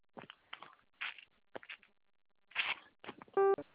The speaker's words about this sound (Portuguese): Para concluir a liberação, aperte o zero e fale com um atendente.